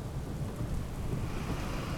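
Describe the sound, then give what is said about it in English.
A storm with wind and rain picking up makes a dense, steady roar of rushing rain and low rumble that holds constant throughout, with no voices. “The wind and rain were picking up, and the sky had an unpleasant greenish-yellow color.”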